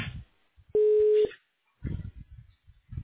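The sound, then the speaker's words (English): A patient scheduling line's voicemail gives a single steady beep, about half a second long, to signal the start of recording, with speech just before and after it. “You have reached the voicemail box for the patient scheduling line. Please record your message at the tone.”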